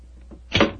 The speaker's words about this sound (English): Is the door locked? Yes, but I think a skeleton key will do the trick.